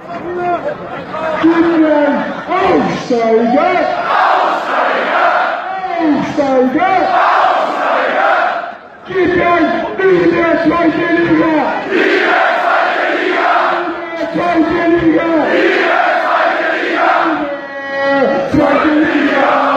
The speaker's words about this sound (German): So klang es Sonntagabend am Pfalzenerweiher, als der 1. FC Nürnberg den Aufstieg perfekt gemacht hatte und dann mit einigen tausend Fans dort seiner Freude Ausdruck verlieh.